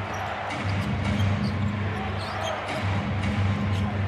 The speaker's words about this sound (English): Bogdanovich dribbles into a three, rattles at home, and he's got 14, his second three of the game